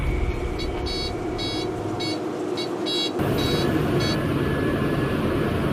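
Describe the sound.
Repeated high electronic alarm beeps from a stopped cotton picking machine, coming in short pairs over a steady loud engine rumble that grows heavier partway through.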